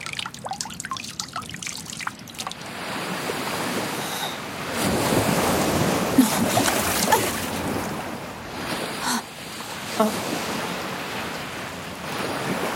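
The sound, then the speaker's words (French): Sea waves wash in with a continuous hissing surf roar that swells and eases, mixed with gusts of wind buffeting the microphone, with no talk. “Une immense étendue d'eau, comme le décrivait mon livre. Une eau contenant plus de sel que ce qu'un marchand pourrait vendre durant toute sa vie.”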